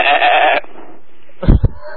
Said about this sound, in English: You're a sheep.